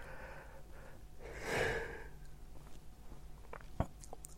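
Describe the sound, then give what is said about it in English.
A person yawns, with a faint, drawn-out breathy swell that rises and fades. Quiet breathing and a soft click follow. “I'm yawning.”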